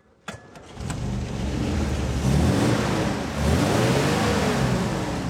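An old car with a four-speed gearbox and a broken overdrive starts up with a sharp catch, then settles into a loud, steady low engine rumble that rises and falls slightly in revs.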